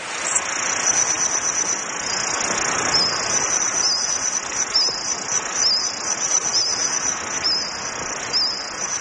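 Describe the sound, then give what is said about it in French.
Reconstructed chirping of Jurassic insects in a forest soundscape: a steady, high, rapidly pulsing cricket-like trill over a bed of soft hiss. It holds an even loudness throughout, with no voices. “Alors là, faut que je précise que c'est une reconstitution partielle. C'est le son de certains insectes du Jurassique.”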